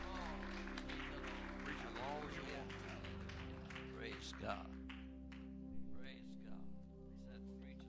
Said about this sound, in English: Would you stand one more time? Would you pat your hands together and welcome the anointing that my dad brings to this pulpit?